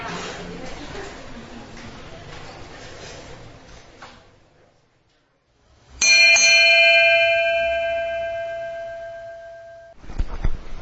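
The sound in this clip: A single bell strike rings out after a stretch of talk, with a sharp onset and bright sustained tones that slowly fade over about four seconds before another brief sound follows.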